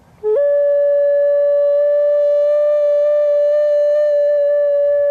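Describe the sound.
A recorder plays ethereal tones at a sculpture-garden performance with a dancer. A brief lower note slips up into one long, pure, steady held tone, loud and unbroken for several seconds, with no other sound.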